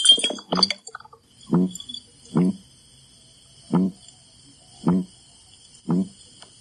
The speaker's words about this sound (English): This is a red-bellied piranha, and it's making this noise as it's being held out of water.